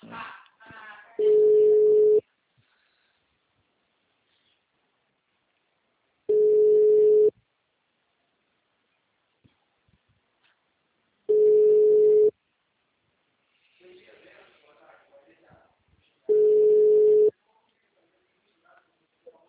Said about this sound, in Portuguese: Calma aí, deixa eu fazer a ligação primeiro.